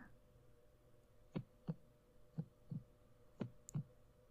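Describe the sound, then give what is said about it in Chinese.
Heartbeat thumps in a steady rhythm, three soft double lub-dub beats, low and muffled against a quiet background. “为什么我突然心跳得好快？”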